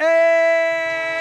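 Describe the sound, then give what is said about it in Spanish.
A train horn in a sports segment jingle sounds one loud, sustained blast, rich in harmonics and steady in pitch. A faint low rumble creeps in beneath it toward the end. “¡El tren de marcador! El tren de Radio Marca es radio.”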